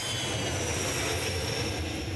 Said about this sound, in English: The nightly news on Russia's state-run television is full of the whine of jet engines as warplanes launch sorties from a dusty airfield in Syria.